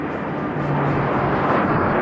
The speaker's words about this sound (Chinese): 迅捷而来的歼击机梯队分别由16架歼8F 飞机、15架歼10飞机和12架歼11飞机编成。